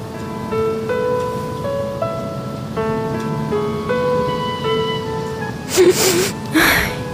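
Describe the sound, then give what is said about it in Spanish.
A woman cries while watching a romantic film. A soft, steady melody plays throughout, then two sharp sobbing bursts break out near the end. “Amor, ¿estás llorando?”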